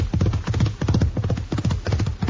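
Horse hooves clip-clop steadily as a saddled horse is ridden, with two riders aboard. The beats come in quick, even clusters that repeat many times, loud and with no talk over them.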